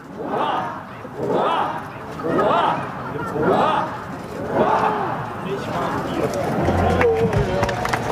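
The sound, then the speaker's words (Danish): A large crowd at Amalienborg Palace shouts a ninefold cheer for the Danish king on his 58th birthday, loud collective shouts rising and falling in a regular rhythm about once a second, then blending into a busier mix of cheering and clapping. “Han var ude og vinke til folket fra altanen, eller hvad det hedder, på Marselisborg. Nej, Amalienborg Slot. Og jeg har fisket det lyd ud, og så var der lige nifoldigt leve her for kongen.”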